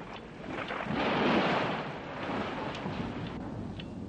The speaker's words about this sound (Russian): На улице гроза.